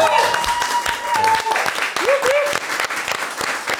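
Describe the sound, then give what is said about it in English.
Audience applause and whoops greet a guest being welcomed onstage, dense clapping with a few rising whoops cutting through, while voices talk over it. “I love a whoop whoop. You know what? When you introduce, whoop whoop. I love a whoop whoop. I don't think you grow with a whoop whoop. No. You deserve it. I do love it. I do love a round of applause.”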